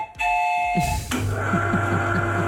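A small souvenir whistle from Medemblik is blown as a signal, giving a shrill, steady, sustained tone with a pulsing flutter after a brief burst of noise.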